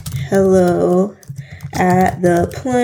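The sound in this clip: Fingers type an email address on a computer keyboard, with quick clicks partly masked by a voice heard alongside.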